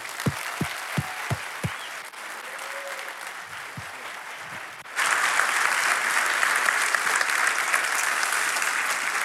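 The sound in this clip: Applause from a church audience at Kingsway welcoming a guest speaker, a few separate claps at first that grow into steady clapping, then swell noticeably louder midway and carry on to the end.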